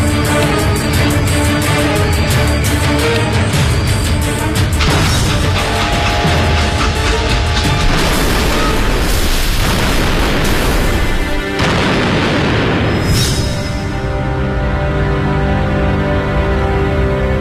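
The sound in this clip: Explosives set off with a push button beside a railway next to a cornfield: a loud, dense, sustained booming rumble fills the whole stretch without letting up, with no voices.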